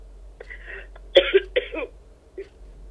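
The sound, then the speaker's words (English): A woman coughs with a dry throat, a few short, rasping coughs and throat-clearing bursts, fairly quiet and separated by brief gaps. “Her throat's a little dry right now. She's been on the air for about 30 minutes, so we're just going to count that as the joy cough.”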